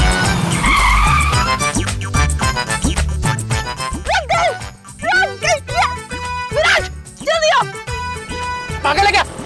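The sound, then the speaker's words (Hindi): A car skids to a sudden stop as a taxi is being flagged down. A loud, high tire squeal fills the opening seconds, then several voices talk over it. “Sorry, कोई रुक ही नहीं रहा था, हम बहुत देर से try कर रहे थे, मेरे पास यही एक तरीका था गाड़ी रोकने का।”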